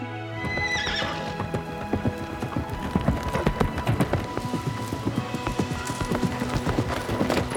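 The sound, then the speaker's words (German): A ridden horse whinnies briefly, then gallops with a rapid, steady run of loud clip-clopping hoofbeats that continues to the end. “Glücklich und so schnell er nur konnte, ritt der Prinz zu Rapunzels Turm.”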